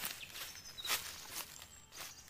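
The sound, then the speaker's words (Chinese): Footsteps approaching in a riddle forest, said to belong to a thousand-year-old sacred tree grandpa: a few soft, slow steps, faint and crunchy, spaced apart with no voices. “诶，有脚步声传来，神木爷爷要出动了。”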